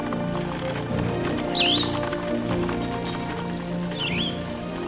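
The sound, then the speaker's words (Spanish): Horse hooves clop steadily as a horse-drawn cart rolls over mud and stones, with a continuous rumbling rattle underneath and two brief high whistling chirps. “Se puede escuchar aún el ruido de la carreta entre el barro y las piedras, subir y bajar ríos, el golpeteo por los duros caminos.”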